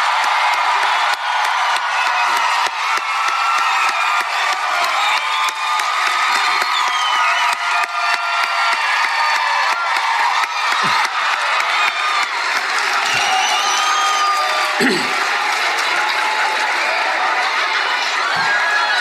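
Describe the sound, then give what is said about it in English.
A convention crowd cheers and applauds a celebrity guest's first appearance, with loud sustained clapping, whoops and shouts that stay strong throughout. “I think we have to give a proper Comic-Con welcome, the very first appearance at Comic-Con for Mr. Bill Murray. Give it up.”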